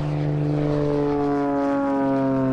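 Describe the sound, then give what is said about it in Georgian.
A small fuel-powered propeller airplane takes off with a loud, steady engine drone. Its strong humming harmonics hold level throughout without a break. “ეს ჩვეულებრივ საწვავზე მომუშავე მცირე ზომის თვითფრინავის აფრენის ხმა.”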